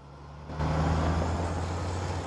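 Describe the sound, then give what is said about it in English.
A truck with a canvas roof drives along a country road. Its engine gives a steady low rumble that grows louder after a brief quieter start and then holds even. “A similar truck with a canvas roof travels along a road through countryside.”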